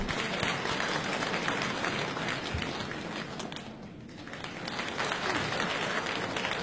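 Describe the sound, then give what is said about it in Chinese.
Dense, continuous audience applause as two stage performers are called back for an encore short piece; it holds steady, dips briefly near the middle, then swells back to full strength. “大家 掌声有请两位。”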